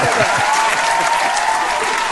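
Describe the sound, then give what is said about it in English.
Audience applause after a performer's segment, a loud, dense and steady wash of many hands clapping that holds evenly for the whole two seconds. “I think our audience wants to chime in and give you a round of applause.”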